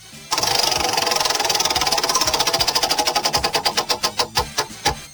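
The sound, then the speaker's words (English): A prize wheel spins, its pointer clacking rapidly against the pegs in a fast, even ticking that gradually slows, the clicks spreading into distinct, louder snaps before it stops. “spin that wheel. There we go.”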